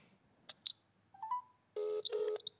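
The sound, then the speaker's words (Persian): Telephone tones from calls coming in to a radio studio: a few short, faint beeps, then a pair of longer, louder dialing tones back to back, followed by one more brief beep. “خب مجدد از استودیو با 4 تا تلفن دارن تماس میگیرن،”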